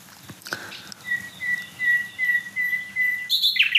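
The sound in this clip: Several small songbirds sing over one another, a thin high whistled note repeating steadily while other chirps and trills weave around it, growing busier toward the end.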